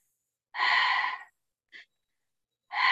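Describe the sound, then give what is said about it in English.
Conscious connected breathing is demonstrated: a long, airy, sighing breath, then a brief soft puff, then another breath beginning. Breaths follow one another with no talking. “what we do with conscious connected breath is like,”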